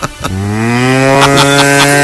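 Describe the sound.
A cow mooing: one long, loud, low moo that starts after a brief noise and holds a steady, richly harmonic tone to the end.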